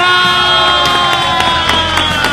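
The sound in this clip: Loud crowd cheering and whooping with scattered claps, welcoming a guest, a steady lively roar held throughout.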